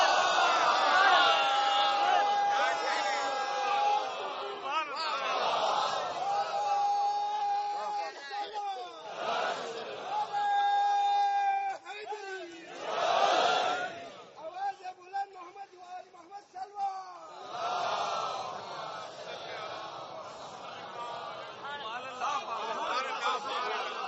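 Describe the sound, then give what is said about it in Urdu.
A crowd chants religious slogans during an Urdu-language gathering. Loud unison voices come in several sustained bursts separated by short lulls, with scattered chatter and laughter between them. “بس میں بھائی, نعروں میں بڑا جوش ہے, درود دھیمی ہے.”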